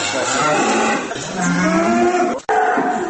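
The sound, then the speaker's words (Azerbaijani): Foreign-breed dairy cows moo in a European-style barn, with long, low, drawn-out calls over constant dense background noise and a brief break near the end. “Əcnəbi cins inəkləri gendən tanımaq mümkündür. O, boybuxunu ilə az qala fili xatırladır.”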